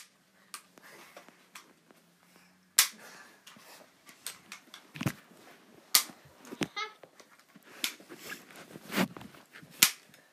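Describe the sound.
Pistol shots in a video game fire as many sharp, fairly faint cracks at an irregular pace, some spaced apart and some in quick pairs.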